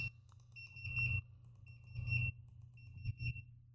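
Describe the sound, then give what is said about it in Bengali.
A phone ringing on a radio studio call-in line: a high electronic tone pulsing in three short ringing bursts, fairly faint over a steady low hum. “Phone চলে এসছে কিন্তু আমি ফোনটা receive করতে পারছি না”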